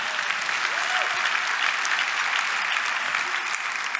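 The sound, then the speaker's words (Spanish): A church audience applauding in worship: many hands clap in a dense, sustained burst for about four seconds, holding an even, loud level throughout. “Dale aplauso al Señor.”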